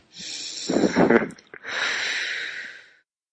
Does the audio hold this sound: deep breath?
yes